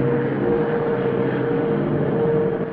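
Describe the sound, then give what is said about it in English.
A Short Sunderland flying boat passes overhead, its engines a steady, dense droning roar that holds an even loudness throughout, with no voices. “It's the Sunderland. A plane with a wide fuselage and smooth curving underside sweeps overhead.”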